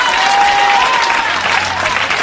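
Sustained applause from a crowd, a loud, dense wash of many hands clapping that holds steady with no gaps from start to finish.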